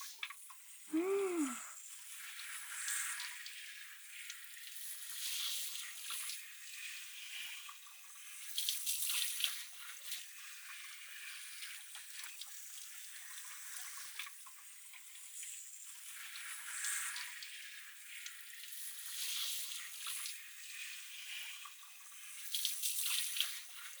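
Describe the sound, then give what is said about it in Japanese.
Shower water runs over the back of the head while the hair is loosened and massaged. A steady, bright, hissing rush of spray continues throughout and swells now and then as the flow shifts against the hair. “後頭部周辺にシャワーを当てて、そしてこうして髪をほぐしながら揉んでいって、”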